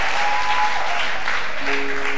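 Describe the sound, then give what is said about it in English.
Loud, continuous clapping from a church audience celebrating a baby boy's dedication. The applause stays dense and even from start to finish. “May men clap for you the way you are clapping now.”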